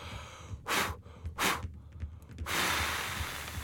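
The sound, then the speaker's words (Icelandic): A voice imitating a wolf blowing hard at a house: two short, breathy puffs, then a longer sustained blow, all soft and with no talking. “Svo dró hann djúft andan og blés og blés. Og blés og blés.”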